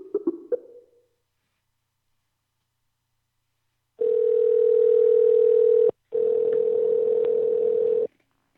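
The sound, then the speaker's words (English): A steady telephone tone plays on a call picked up by an automatic dialer. Its loud, even, low hum runs about two seconds, breaks off for an instant, then resumes for two more, after a few faint clicks. “That sounded like an auto fucking dial. Budget dial.”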